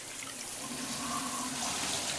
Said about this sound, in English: She turns on the water, then activates the shower head, letting it soak her skin and short blonde hair.